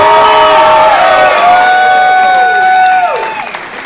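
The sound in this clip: Applause and cheering from a comedy show audience at the end of a comedian's set, with whoops and shouting voices gliding over the clapping, loud and then fading away.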